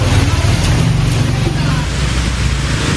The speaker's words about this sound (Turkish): Bangkok sokaklarında ulaşım da teknelerle sağlanıyor.